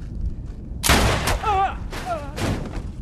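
Gunshots ring out aboard an ancient spaceship: a few loud, sharp blasts, each followed by a wavering, ringing whine.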